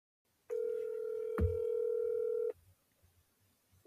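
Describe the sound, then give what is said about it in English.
A telephone call tone heard while placing a call: one steady electronic tone held for about two seconds, with a brief thump partway through, then silence. “Just call her, see if she answers.”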